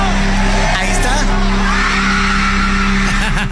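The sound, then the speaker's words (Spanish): A concert audience reacts and cheers, a loud, unbroken roar of crowd noise with whoops and shouts rising out of it, over steady low tones and mixed with voices. “Pero miren, esta fue la reacción completa del público para que escuchen en pleno concierto.”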